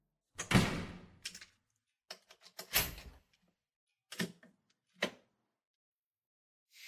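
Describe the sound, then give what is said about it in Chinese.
A door being shut in an office, heard as a few sharp thuds and clacks separated by short gaps, with the loudest knock near the middle and quieter taps after it. “那个谁，把门给我关上。”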